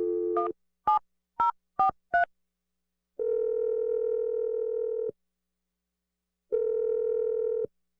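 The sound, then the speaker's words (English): Touch-tone dialing of a telephone number: five short two-tone key beeps in quick succession, then two long, steady ringback tones separated by a pause. “Here we go. I'm going to dial the number right now.”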